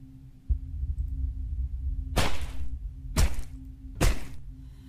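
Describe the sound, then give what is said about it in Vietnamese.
Three heavy thuds as a knife blade strikes down on a fish's head, each a sharp, cracking hit about a second apart, over a low steady hum. “Mỗi một nhát đập còn vang lên một tiếng cốp.”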